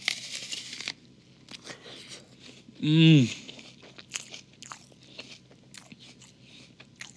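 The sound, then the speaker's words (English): A single loud, crunchy bite into an apple, a short crisp crack that stands out against quieter background sounds. “this apple beside me tastes really good. I have to bite into it.”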